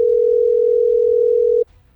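A telephone ringback tone sounds while a caller waits for someone to answer: a single steady, mid-pitched tone holds for about one and a half seconds, then cuts off into near silence.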